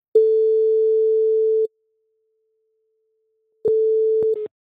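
A telephone busy signal after a call is hung up: a steady low electronic tone holds for about a second and a half, falls silent, then returns as a shorter burst broken by a couple of sharp clicks.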